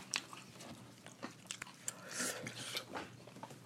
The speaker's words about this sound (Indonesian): Ini ayo, gue sambil makannya.